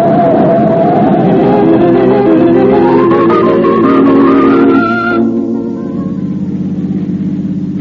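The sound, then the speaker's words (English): A car engine revs hard as it accelerates away in a chase through Paris: a continuous mid-pitched roar whose tone climbs steadily, then drops off near the end. “going, gun it! Think you can get away from him? Are you kidding? This might be Paris, but I learned to drive in Brooklyn.”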